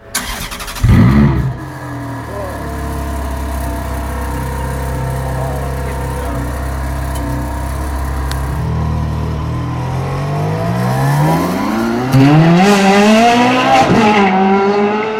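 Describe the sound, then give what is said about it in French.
A Ferrari Formula One racing car engine revs with a loud burst near the start, then holds a steady, rich drone before climbing and wavering in pitch through several hard revs toward the end. No one talks. “Si vous aimez la Scuderia, ce doux bruit a quelque chose d'hypnotique.”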